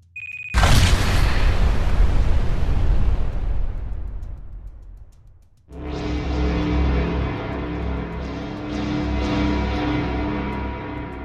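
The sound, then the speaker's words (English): A single heavy explosion from a bomb set off with a remote detonator: a sudden loud boom that rolls into a long, rumbling decay fading over several seconds, followed by a sustained musical drone. “he looked at the chunky remote detonator in his hand, said another round of prayers, and flicked down the big red switch.”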